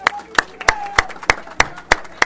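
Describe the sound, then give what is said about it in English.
Students applaud at a school gathering to thank their teachers and families. Eight sharp claps land in a steady, evenly spaced rhythm, each one crisp and distinct with little sound between them. “If I could just ask the students, if you could join me in a round of applause thanking your teachers and your families at this point.”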